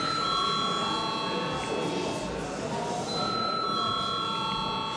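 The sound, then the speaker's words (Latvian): In a parliament chamber, an electric bell rings to call a vote: a steady, sustained high ringing tone with a brief break partway through, over dense background noise. “Deputāti tomēr prasa balsojumu, lūdzu zvanu.”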